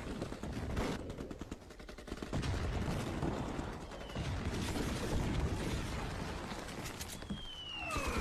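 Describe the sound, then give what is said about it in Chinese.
Soldiers on a city gate tower fire rifles at attacking enemy troops. The result is a dense, continuous crackle of overlapping gunshots that stays faint and unbroken throughout the battle din. “战士们对着敌军开枪射击”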